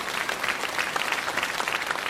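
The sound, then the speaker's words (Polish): Applause breaks out after a near-unanimous vote, a dense, even stretch of clapping from many hands that keeps a steady level throughout. “Przyjmuję te oklaski jako dowód zaufania.”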